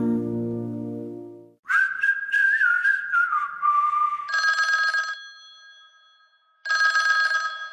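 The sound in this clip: Telephone ringing in an advertisement for a business phone switchboard service. A high, wavering tone is followed by two loud, trilling ring bursts separated by a short pause.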